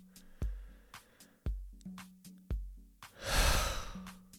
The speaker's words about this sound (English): Big breath there.